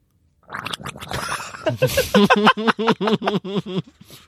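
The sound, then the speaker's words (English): A person gargles liquid loudly: a rough throaty burble starts, then breaks into a rapid rhythmic train of voiced bubbling pulses that runs to the end. “This could be a horrific noise for people listening, but okay, I'm about to do the gargle.”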